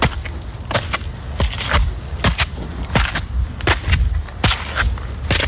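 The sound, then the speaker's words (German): Footsteps climbing stairs up a hill, a run of many irregular crunching steps and scuffs at an uneven pace, fairly loud and with no talk. “Du gehst einen mit Treppen bestückten Berg rauf”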